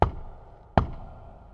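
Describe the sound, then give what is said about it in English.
Two knocks on a wooden door, each a dull, low thud with a short decay, spaced under a second apart with no voices. “He knocked on the door”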